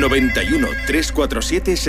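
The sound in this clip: A telephone ring or ringtone sounds during a live call-in segment on a Spanish radio station, a steady tone sitting beneath busy voices throughout.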